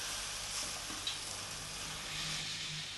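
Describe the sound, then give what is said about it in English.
Aubergines, onions and garlic fry together in a pan with a soft, steady sizzle and hiss that stays faint and even throughout, with no talking. “saute the aubergines a little. Let's mix the onions there, all the garlic and onions. Fry them all up together there.”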